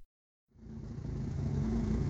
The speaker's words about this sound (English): The engine growls with a smooth rumble in the back of its throat, signalling more banked power under the hood than she can spy from her station.